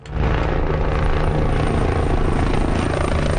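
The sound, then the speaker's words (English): A helicopter water-bombing a forest fire near the central Spanish town of El Tiemblo gives a loud, steady rotor-and-engine drone that holds at an even level throughout, with no voices. “a helicopter water bombs flames in the central town of El Tiemblo, a national emergency.”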